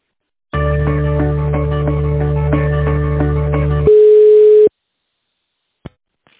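A telephone line tone plays while a call is being transferred: a steady, buzzing multi-pitched tone holds for about three seconds, then switches to a single pure tone before cutting off, followed by one brief click.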